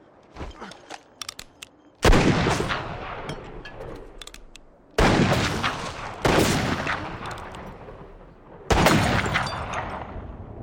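Four loud rifle shots in a western film scene, each a sharp blast trailing into a long rolling decay and irregularly spaced, preceded by a few softer clicks at the start.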